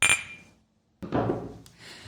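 Glasses clink in a toast at a café with one sharp, bright strike and a short ringing tail, then a pause followed by a burst of rustling, clattering noise.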